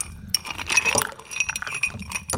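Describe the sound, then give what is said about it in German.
Ice cubes clink into a cocktail glass holding a passion fruit drink, a quick irregular series of bright clinks and clatters at moderate volume, with no voices. “Und jetzt nur noch Eiswürfel.”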